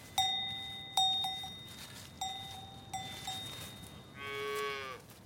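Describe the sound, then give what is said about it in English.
A small spotted calf gives one short moo near the end, after several ringing bell-like clanks spaced through the first few seconds. “Actually, it was a calf. The small, spotted animal approached us cautiously, sniffing the air.”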